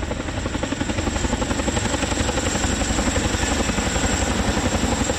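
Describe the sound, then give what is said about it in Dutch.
A large helicopter, about 30 meters long and built to carry large groups or heavy loads, comes in to land: a loud, steady, rapid rotor throb with a continuous engine roar and no voices. “En de indrukwekkende helikopter is zo'n 30 meter lang en kan grote groepen mensen of zware ladingen vervoeren.”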